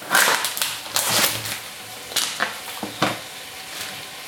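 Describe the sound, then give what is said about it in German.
Minced meat hits a hot frying pan and sizzles, broken by a series of sharp scraping and clattering bursts that stand out against a faint, steady crackle. “So, jetzt kommt das Hackfleisch rein.”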